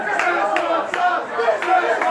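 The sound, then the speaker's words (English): Crowd commotion at a McDonald's as customers clamor for Szechuan dipping sauce, with many overlapping excited voices and a few sharp shouted bursts rising above the din. “It's chaos at a McDonald's over, of all things, Szechuan sauce.”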